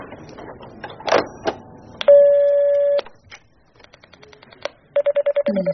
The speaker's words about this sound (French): Deuxième coup de fil à Mr. Cherry White. Nous l'avions déjà appelé 2 jours auparavant au centre spatial de Houston.